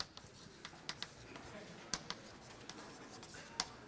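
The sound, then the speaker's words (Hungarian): Faint writing on a board during a maths lecture, with short sharp taps and scratches at irregular intervals, about a dozen small clicks spread across a few seconds. “Ide is írom.”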